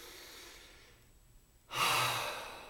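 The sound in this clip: A single breath: a faint airy intake trails into a brief hush, followed by a louder breathy release that swells quickly and then slowly fades.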